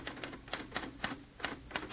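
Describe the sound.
Clacking keystrokes on a typewriter as someone types a eulogy, a quick, uneven run of sharp mechanical taps with short pauses between bursts and no talking.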